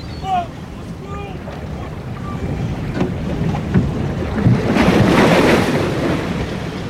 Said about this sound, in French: Les vagues sont trop fortes!